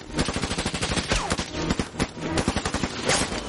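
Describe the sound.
Rapid gunfire: many loud shots in quick succession from a gun fired by a man advancing toward a fallen tree, in ash-laden air at night, forming a dense, continuous crackle of sharp bursts.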